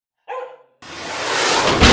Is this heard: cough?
no